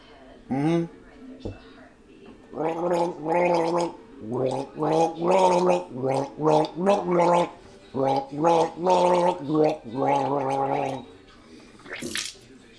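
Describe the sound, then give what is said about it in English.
Gargling sounds from a person with a sore throat who is gargling a song, a loud run of bubbling, throaty phrases that carry a melody, with short pauses between bursts. “Maybe I could do a contest and you could figure out what song I'm gargling and win.”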